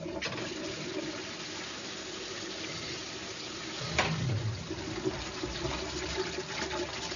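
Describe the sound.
A toilet flushes with a sustained rush of water that swells into a louder, gurgling surge partway through, then settles back into steady running water.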